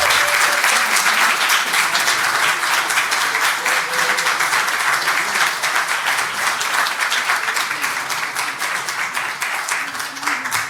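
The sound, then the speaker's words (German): Sustained audience applause for a performer coming onto a stage, dense and steady for the full length with no break, holding loud and even before easing slightly toward the end. “Einen ganz herzlichen Applaus für die Susanna.”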